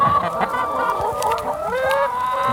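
Hens clucking on an egg farm with about 150 laying hens. Many loud, overlapping clucks and squawks run continuously without a break.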